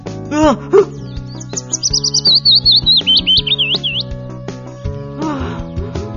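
Sparrow chirping: a quick run of many short, high tweets in a steady string through the middle, with a few lower calls near the start and end, all over a backing of music.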